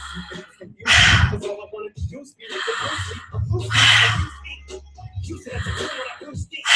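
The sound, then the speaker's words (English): During a guided relaxation exercise, three long, deep breaths are drawn in, each loud and airy with breathy rushes between them. “Big inhale. Inhale.”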